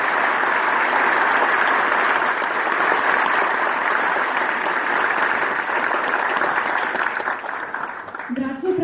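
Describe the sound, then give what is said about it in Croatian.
Sustained audience applause at an Orthodox youth Christmas academy, honoring a family, with dense, even clapping that holds steady for several seconds and tapers off near the end as a voice comes in. “Molim vas da jednim velikim aplauzom pozdravite našu porodicu Janjušević koja je tada tu sa nama”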